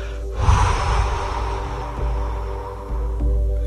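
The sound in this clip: A forceful breath blown out hard, a loud, sustained rush of air lasting several seconds with little change, over a low steady hum, with no talking.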